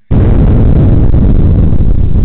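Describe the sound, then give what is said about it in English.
Bombs exploding in a sudden loud blast that cuts in abruptly and carries on as a dense, rumbling roar for about two seconds without fading. “Bombs.”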